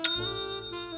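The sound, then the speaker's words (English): A bright, bell-like online-store sale notification chime: a single sharp ding that rings out with a sustained, shimmering high tone and fades gently over about a second. “Well, aside from that one, because that's the sound of another sale on Shopify”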